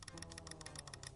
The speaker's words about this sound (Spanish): sí, este es el sonido de retuitear con el dedito en el ratón.